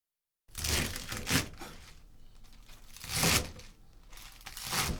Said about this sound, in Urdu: سب سے پہلے ہم پالک اور بروکلی کو دھو کر کاٹیں گے۔